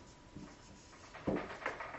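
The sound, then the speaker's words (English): Writing on a board during a lecture: a few short, faint scratchy strokes in quick succession. “I'll write it up here.”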